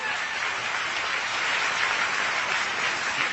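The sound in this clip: Audience applause at a speech fills the whole stretch as dense, even clapping at a steady moderate level, with no voices rising above it.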